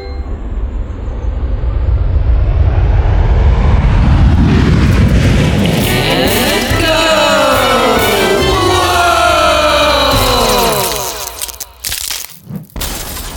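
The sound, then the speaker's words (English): A rocket launches on a return trip to Earth. A loud, rumbling roar builds over a few seconds and holds with swirling, sweeping tones, then breaks into choppy crackling bursts near the end. “Please click the picture of the rocket to return to Earth. Okay, here goes.”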